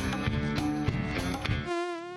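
A mosquito whines in a thin, steady buzz with a wavering, slightly warbling pitch. It emerges alone after a dense, louder harmonic sound.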